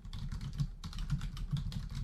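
Typing on a computer keyboard: a steady run of many quick, soft keystroke clicks over a low hum, with a brief pause partway through and no voices.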